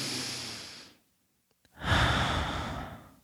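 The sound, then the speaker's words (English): Deep breaths drawn during a demonstration of regulated breathing: two long, soft, breathy rushes with no voice, separated by a silent pause of under a second. “I'm going to step back, pause. I'm going to take a deep breath in.”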